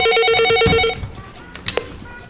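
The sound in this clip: A telephone rings with an incoming call on a call-in show line: a loud, bright multi-tone ring holds steadily for about a second, then cuts off, leaving faint clicks and handling noises.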